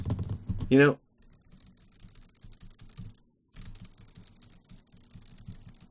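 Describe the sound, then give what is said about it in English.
Typing on a computer keyboard: many quick, uneven clicks in two bursts separated by a short pause, with a brief voice at the very start before the keys take over. “I type all day long, humans. All day long.”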